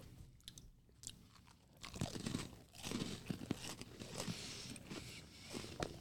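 Someone chews crunchy chocolate key lime cookies, with many soft, crisp crunches in an uneven chewing rhythm, quiet throughout.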